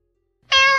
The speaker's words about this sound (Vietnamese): Chợt một tiếng mèo kêu vang lên